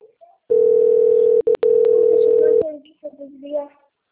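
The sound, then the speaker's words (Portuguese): Telephone ringing tone on an outgoing call: one long, steady, mid-pitched tone lasting about two seconds, broken by two brief gaps near its middle, followed by faint talk. “Tá chamando.”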